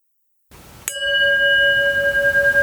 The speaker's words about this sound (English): I'll begin and end our time with the sound of the singing bowl.